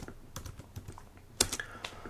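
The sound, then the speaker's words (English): Someone types on a computer keyboard into a chat box: a few soft, scattered keystrokes, faint throughout, with a slightly sharper cluster of clicks near the end. “I'm going to type it into the chat box.”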